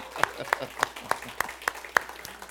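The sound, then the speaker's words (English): Church audience clapping for the fish fry and Vacation Bible School volunteers: seven crisp, evenly spaced claps in a steady beat, fairly soft, with quiet gaps between each hit. “So for all of our fish fry servants and all of our VBS servants, one more rounding, applause with all you got.”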